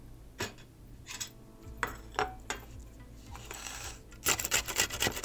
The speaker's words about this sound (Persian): مرحله دوم یه پیاز رو باید رنده کنید.